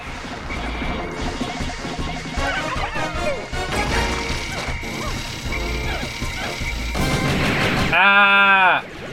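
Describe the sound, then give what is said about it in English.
Machine gun firing in the Pikmin video game, a dense, rapid mechanical rattle of many shots over busy game sounds, ending with a brief high warbling tone. “Every time he shoots his machine gun, more Pikmin die.”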